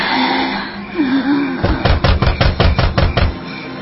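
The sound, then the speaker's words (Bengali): Heavy, rapid banging of a door being forced that will not open: many hard thuds in a fast, uneven run in the second half, after a quieter stretch. “চেষ্টা করছি কিন্তু দরজা তো খুলছে না।”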